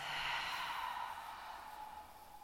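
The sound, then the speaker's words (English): A deep breath pushed out through an open mouth, a steady breathy rush that stays strong, then tapers slightly and fades toward the end, alone without talk. “Take a deep breath in. Open your mouth, release.”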